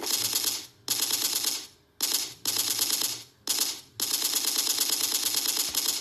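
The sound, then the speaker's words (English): Automatic gunfire sound effects in several sustained volleys of rapid, loud, clattering shots, separated by brief gaps of near silence. “I like sound effects. God damn it! Gun sound effects.”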